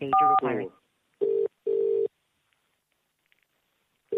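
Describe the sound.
A phone keypad tone for the number 4 on a newspaper's automated switchboard menu: one short dual tone overlapping a brief bit of talk, followed by a double-pulse ringing tone, a long silence, and the next ring starting.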